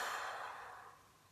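A single deep exhale during a guided breathing exercise, a soft, faint breathy rush that fades steadily away over about a second.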